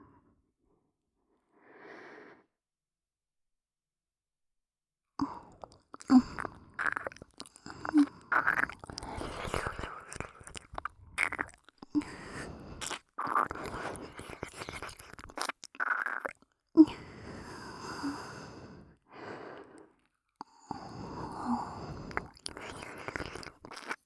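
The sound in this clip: Close, wet chewing of shumai dumplings. Many soft crunching and smacking mouth sounds come in an irregular rhythm after a quiet opening with one faint short sound.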